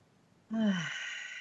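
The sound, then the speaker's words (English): A deep breath being let out during a guided yoga breathing exercise: a soft, faint sigh-like exhale with a brief voiced start that fades into a long, airy breath. “Take a good deep breath.”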